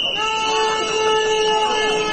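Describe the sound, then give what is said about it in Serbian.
Horns and whistles blare from a workers' protest march as a column sets off, a loud, steady tonal din with several sustained pitches holding without a break across the whole stretch. “formirali su kolonu i sa pištama i trubama se uputili ka parku Mladen Stojanović”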